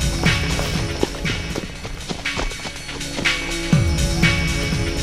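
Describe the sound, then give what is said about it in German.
Running footsteps in a radio play as children hurry after a girl, many quick, rhythmic thuds in a fast, steady patter at a moderate level. “So schnell sie konnten, folgten die Jungen dem Mädchen”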